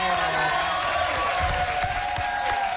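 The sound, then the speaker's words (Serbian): An audience ovation after singing, a dense, steady clatter of applause with cheering mixed in and a sustained tone running underneath. “Bravo! Je ovacija.”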